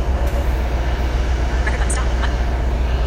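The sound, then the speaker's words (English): A train arriving at a platform fills the air with a steady, loud, low rumble and a broad roar that holds without a break from start to finish. “our train's coming. I hear a train”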